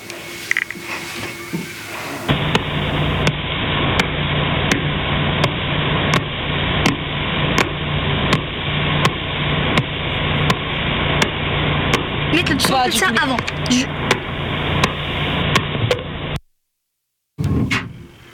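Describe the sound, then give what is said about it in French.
Radio signal from a pulsar converted into sound: a long, steady train of sharp, evenly spaced ticks over a dense buzzing hum. It follows a brief stretch of other sound and cuts off abruptly near the end. “Ce que vous venez d'entendre, c'est un son de pulsar.”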